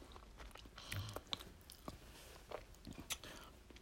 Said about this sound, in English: I'm sorry, I'm being rude, chewing and shit.